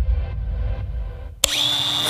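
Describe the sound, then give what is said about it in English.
A Milwaukee angle grinder or Makita multi-tool starts up abruptly after a low rumble. Its motor whine climbs quickly, then holds a steady, piercing high pitch. “Oh, Milwaukee Angle Grinder. Oh, the Makita Multi-Tool. Know your power tools?”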